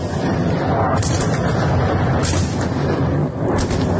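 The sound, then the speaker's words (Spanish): Heavy, continuous rumbling roar from a massive Russian attack on Kyiv, loud and unbroken, with a few sharper bursts swelling over the din; no talk. “Sonido de la ofensiva sobre Kiev, que las autoridades han definido como masiva.”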